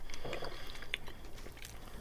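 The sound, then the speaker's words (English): Someone chewing a chocolate-covered chewy sweet with a soft, jelly-baby-like centre, giving quiet, moist smacking and squishing sounds over low background noise. “Chew, chew, chew. I'm trying to get rid of the chocolate taste so I can get to the centre.”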